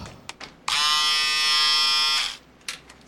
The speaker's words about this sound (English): Look what I got for you. An electric razor. So you can shave yourself now.